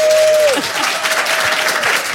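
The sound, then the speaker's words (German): An audience at an evening book event in Berlin gives thunderous applause: loud, dense, continuous clapping that holds steady throughout, with a brief thin tone fading out at the start. “Ich bitte Sie, obwohl er schon hier sitzt, um einen tosenden Applaus für Sebastian Krumbiegel”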